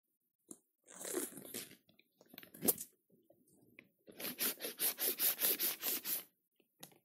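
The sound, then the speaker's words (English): A crumpled paper card being smoothed out by hand: crinkly, crackling rustles in an uneven stretch, then a quick, rhythmic run of crisp crinkles. “Put a name on that list, on that card. If you wadded it up earlier, go ahead and unwrinkle that puppy.”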